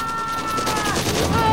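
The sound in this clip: Gunfire in a tense armed confrontation, rapid repeated shots forming a dense, loud burst that runs throughout.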